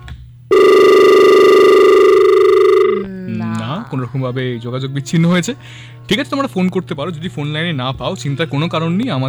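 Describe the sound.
A telephone ring tone as a caller joins the line: one loud, steady electronic tone lasting about two seconds, followed by people talking.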